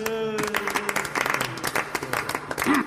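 Applause from an audience of eco summit delegates in an audio drama, a dense run of many claps that keeps a steady loudness for nearly three seconds.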